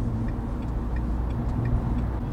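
A car drives on a motorway, giving a continuous low, rumbling road and engine drone at an even level throughout, with faint, regular ticking above it.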